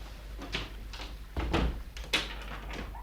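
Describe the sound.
A door being opened during an unauthorized entry into someone else's flat: a few dull clunks and knocks, the loudest near the middle and another sharp one soon after, with no one talking.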